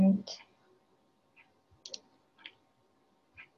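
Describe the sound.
Mouse clicks on a computer report: a few quiet, crisp clicks, spaced irregularly over a near-silent background.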